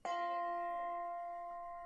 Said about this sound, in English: when the bell rung one